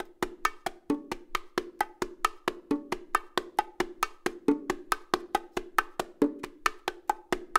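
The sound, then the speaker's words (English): The traditional martillo pattern is played on bongos: a steady, continuous run of many crisp, evenly spaced hand strokes, with bright high slaps alternating with rounder, lower open tones in a repeating cycle, and no voices. “Okay, so that's kind of like the real traditional way of playing martillo on the bongos.”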